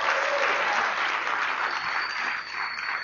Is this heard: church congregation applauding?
yes